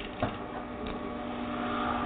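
A sewing machine stitches while its thread tension is being adjusted. A quiet, steady mechanical whir and hum runs throughout, with a faint knock near the start.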